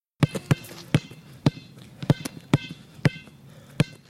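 A Spalding basketball bouncing on a sidewalk: many sharp, hollow thuds in a loose, uneven dribbling rhythm, clear and fairly loud, with no voices.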